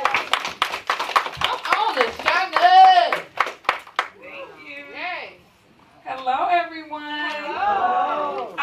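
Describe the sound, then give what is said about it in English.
An audience applauds a woman called up to the stage at a podcasting event. Sharp, rapid hand claps fill the first half, mixed with cheering voices, and then people talk. “Y'all give her a hand.”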